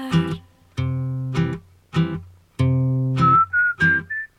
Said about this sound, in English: All that and whistling, that is a gorgeous song.